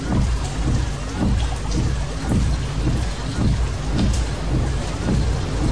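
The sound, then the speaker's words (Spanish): Heavy rain falls at night around a car, a loud, dense, constant hiss with recurring low thumps underneath and no voices. “Es de noche y llueve.”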